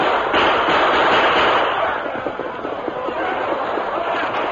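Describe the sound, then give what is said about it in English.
Massed gunfire in a dramatized battle as outlaws charge the defenders of a mine: a dense, continuous crackling roar of many overlapping shots, loud throughout and easing slightly midway. “their guns ready, their faces grim with determination. At last, the Lone Ranger gave the command. Open fire!”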